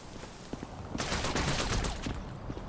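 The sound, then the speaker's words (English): Machine pistol gunfire in a video game: a dense, rapid crackle of shots begins about a second in and continues to the end at a fairly faint level, over quieter noise with a few isolated taps before it. “Weapon. Machine pistol.”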